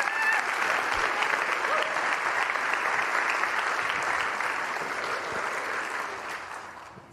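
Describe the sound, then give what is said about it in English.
A church audience applauds to welcome a speaker at a morning service. The clapping is dense and steady, then tapers off toward the end. “would you also give Gabby a great welcome this morning as he comes and shares the word?”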